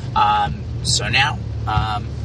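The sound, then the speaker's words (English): Car interior while driving to a college campus: a steady low engine and road hum runs beneath short bursts of a person talking. “we're actually driving to Swarthmore College right now. We're doing this in the car. I promise you I'm driving safely.”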